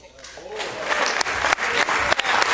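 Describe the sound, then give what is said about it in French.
A short ovation sound effect of crowd applause swells in from quiet and quickly settles into a dense, steady clatter of many hands. “Oh, j'ai laissé une petite ovation.”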